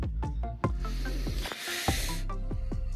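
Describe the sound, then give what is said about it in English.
A deep breath drawn as a rush of hissing air that lasts under a second, set among other quiet sounds. “Sorry, I needed a deep breath.”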